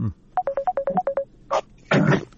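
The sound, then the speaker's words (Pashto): An incoming Skype call ringtone plays a fast run of short electronic beeps on two alternating pitches, then a few rough bursts of noise. “د سکایپ له طریقه یو اوریدونکو دی، دا زنګ هم د سکایپ و خبري وکي.”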